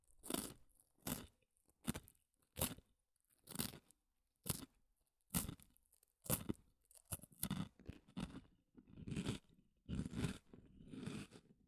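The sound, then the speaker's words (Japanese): Crunchy stick-shaped snack being bitten and chewed: many sharp, crisp crunching bursts in an irregular rhythm, separated by brief silences, quiet and close with no talk. “スティック状のやつはサクサク楽しい音。”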